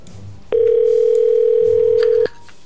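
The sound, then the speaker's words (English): A telephone ringback tone sounds on an outgoing call: one loud, unbroken electronic tone lasting nearly two seconds, steady in pitch, with only faint background noise before and after it. “It's ringing.”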